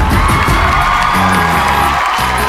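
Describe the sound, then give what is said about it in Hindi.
An audience at a stage show cheers and whoops in a loud, continuous wash of crowd noise with a steady tonal hum underneath. “तो let's call upon with a big round of applause Baba.”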